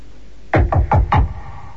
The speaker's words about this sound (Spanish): llamé a la puerta prohibida, aquella que, según me había dicho la mujer, no debía abrir jamás.